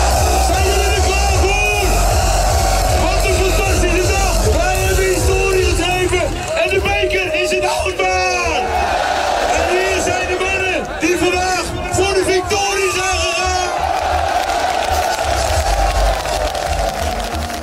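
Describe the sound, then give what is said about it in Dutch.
Alkmaar football fans celebrate AZ players at the stadium after a cup win over NEC: a dense, loud crowd roars continuously, with yells, whoops and babbling voices layered throughout. “En dolenthousiaste Alkmaarders hebben gisteren tot in de kleine uurtjes feest gevierd. Nou, je kunt wel raden waarom. De bekerwinst op NEC. Bij het stadion werden de spelers van AZ spontaan gehuldigd. Klonk zo.”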